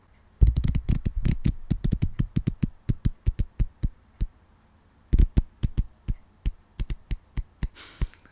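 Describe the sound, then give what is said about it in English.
Playing cards printed with real and fake news being handled: many sharp, quick clicks in a steady run, a short pause, then more clicks that gradually space out. “I have a bunch of cards with real and fake news, and I want you to tell me when to stop.”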